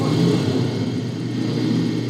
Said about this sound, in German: Er steigt auf sein Motorrad und schießt davon.